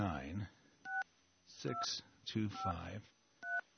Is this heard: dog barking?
no